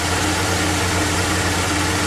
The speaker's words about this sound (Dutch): Stationair is dit, hè? Komen de toeren zo, de turbo te laden.